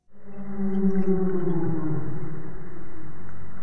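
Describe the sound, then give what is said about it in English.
A humpback whale vocalizes underwater in a protected channel near Juneau, Alaska. One long, low, harmonic moan sounds alone at a steady level, with its pitch dipping slightly midway. “That's the sound of a humpback whale in Juneau's North Pass between Lincoln Island and Shelter Island.”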